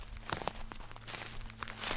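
Uneven footsteps crunch faintly through a farm field, soft scuffs and rustles over a low, steady background.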